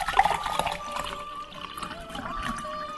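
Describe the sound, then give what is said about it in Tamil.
Shaken, frothy cold coffee is poured into a glass tumbler, giving a continuous, fairly quiet stream of liquid splashing and trickling with bubbly gurgles and no talk. “ஷேக் பண்ண பிறகு நீங்க குடிக்கக்கூடிய அந்த டம்ளர்ல இத மாத்துங்க. மாத்திட்டு கூடுமான வர கிளாஸ் டம்ளர் பயன்படுத்தினீங்கன்னா அதனுடைய டேஸ்ட் இன்னும் என்ஹான்ஸ் பண்ணி கொடுக்கும்.”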